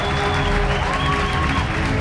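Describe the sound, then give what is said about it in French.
Steady applause from a crowd at a cinema screening of a TV series finale in Paris, dense clapping sustained at an even level throughout, with faint tonal notes threading through it. “Une foule d'applaudissements et les notes d'un générique culte qui s'évanouissent.”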